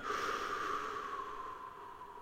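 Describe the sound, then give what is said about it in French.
A person breathes out slowly and steadily during a relaxation exercise, eyes closed. The airy, faint blow is sustained for about two seconds and gradually softens. “vous allez prendre une bonne inspiration. Fermez les yeux et soufflez.”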